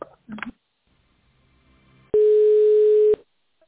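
A single steady telephone line tone holds for about a second while a call is transferred to a purchasing department. A brief, louder sound comes earlier, followed by near-silence.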